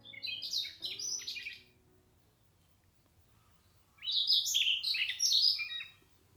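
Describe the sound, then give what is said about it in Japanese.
Siberian rubythroat song: two bursts of rapid, high-pitched warbling and chirping phrases separated by a long quiet pause, with no voices. “のごまっていうね、 のごま、聞いていただきましょうかね。 その鳴き声がね”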